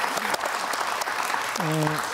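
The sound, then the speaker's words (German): Applause runs steadily through the whole stretch as a dense patter of claps, with a voice briefly heard over it near the end. “kann man applaudieren.”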